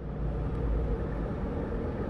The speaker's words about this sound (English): I'm driving into Boston on Interstate 93.